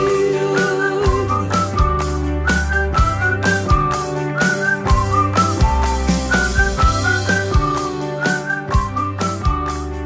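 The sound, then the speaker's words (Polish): A man whistles a bright, wavering tune inside a pop song, the melody riding above steady bass, drums and backing instruments throughout. “Nie wiedziałem, że jest tak dobrym gwizdajłą.”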